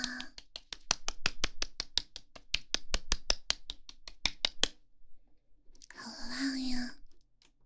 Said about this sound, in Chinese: 鼓掌